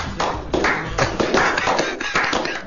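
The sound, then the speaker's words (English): Audience applause for a performer: clapping in dense bursts that swell and dip several times, moderately loud and continuous throughout. “Give it up for Bill Cleveland.”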